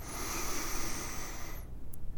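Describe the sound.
A long, deep breath drawn in, a steady airy hiss that holds for about a second and a half and then stops, heard alone without talk.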